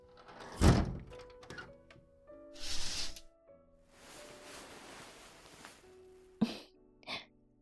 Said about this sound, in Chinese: 你去把门窗关上。